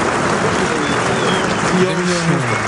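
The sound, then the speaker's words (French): A bullfight audience gives an ovation after a series of manoletinas, a dense wash of applause and cheering with voices rising over it, staying loud throughout. “Elle s'est libérée par un pecho et forte ovation du public à la sortie de cette série de Manoletine.”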